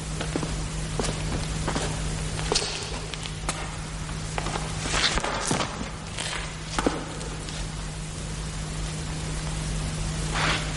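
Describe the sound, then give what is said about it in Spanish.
Footsteps of someone walking through stone arches that lead into a tunnel: an uneven series of scuffing steps over a steady low hum and hissy background noise, with no talk. “Luego camina por el interior de unos arcos de piedra que le llevan a un túnel.”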